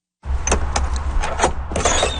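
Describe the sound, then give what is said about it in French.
The door of a small trailer is opened, giving a few sharp metallic clicks and rattles over a steady low hum. “Il nous ouvre la porte de la petite remorque dans laquelle se trouvent ses derniers objets.”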